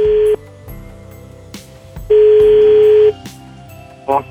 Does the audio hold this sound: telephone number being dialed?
yes